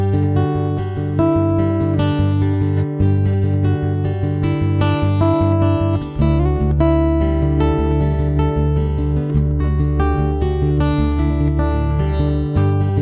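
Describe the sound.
Fingerpicked acoustic guitar melody with a steady Travis-style alternating thumb bass in an acoustic folk-rock style. Plucked treble notes ring over a continuous bass pulse at an even, moderate tempo.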